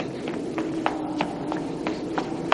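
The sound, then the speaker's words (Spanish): Quick, even running footsteps of a boy racing down a hotel corridor beside the kitchen, from the 1980 horror film The Shining. About eight light, regular taps sound in steady rhythm over a low background hum. “Dani corre por un pasillo aledaño a la cocina.”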